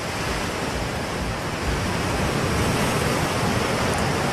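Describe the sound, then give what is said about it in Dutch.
Sea waves roll in a steady, dense roar of surf that swells slightly louder partway through and continues unbroken, with no voices. “die zee klinkt misschien rustgevend”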